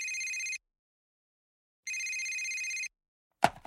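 A telephone ringing with a late-night call after midnight: two bursts of bright, high electronic bell-like ringing separated by a pause, followed by a brief clattering sound at the end.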